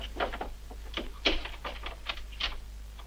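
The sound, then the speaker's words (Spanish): A key locks a door from the outside, heard as a run of sharp metallic clicks and rattles spaced unevenly over a few seconds, with faint low hum underneath. “Una vez ha metido todos en el dormitorio, sale y echa la llave por fuera.”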